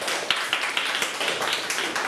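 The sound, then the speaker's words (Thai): Rhythmic hand clapping from a class praising a pupil during a Thai language lesson, a moderate, evenly spaced series of sharp claps repeating throughout. “โอเคปรบมือให้กันดาหน่อยสุดยอดมาก”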